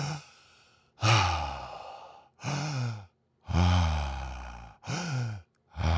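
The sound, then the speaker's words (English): Deep circular breathing as an exercise, made of long, audible, sighing breaths. Several breathy exhales, some voiced and low, follow one another in a steady rhythm with brief silent gaps between them. “Just deep circular breaths like this.”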